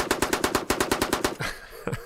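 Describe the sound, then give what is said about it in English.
Machine gun fire rattles out in a rapid, evenly spaced burst of many shots, followed after a brief pause by a single sharp report. “I guess we're getting into the machine gun fire here.”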